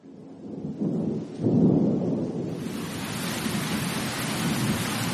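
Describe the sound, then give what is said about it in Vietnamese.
Sudden heavy rain pours down after a few low thunder rumbles, the downpour swelling into a loud, steady hiss that fills the rest of the stretch. “sao đột nhiên lại mưa lớn như vậy?”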